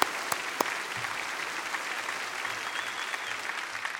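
Applause from an audience welcoming a pastor: dense, steady clapping that fills the whole stretch at an even level, with a couple of sharper individual claps standing out near the start.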